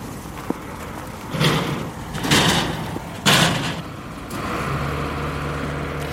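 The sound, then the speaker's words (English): Rescue crews digging through rubble after a cruise missile strike on Vinnytsia in central Ukraine, with three broad scraping, thudding bursts of debris over steady background noise and a low hum. “Here's what the scene sounded like this afternoon as rescue crews dug through rubble looking for survivors.”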